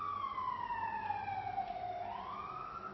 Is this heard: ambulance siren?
yes